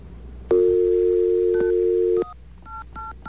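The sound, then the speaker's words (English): A telephone number being dialed: a steady, loud dial tone hums for under two seconds, then stops, and a few short, crisp keypad beeps follow at uneven intervals. “Oh, you need a 9 there. I thought I dialed a 9. Really? Okay, hang on. Let's try that one more time.”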